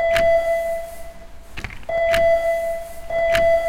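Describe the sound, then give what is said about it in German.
A bell at the valley station of a small funicular rings three times in short, bright dings over a steady electric tone, with a single click between the first and second rings. “Damit die überhaupt fährt, müssen wir hier an der Talstation dreimal auf so einen großen Klingelknopf drücken.”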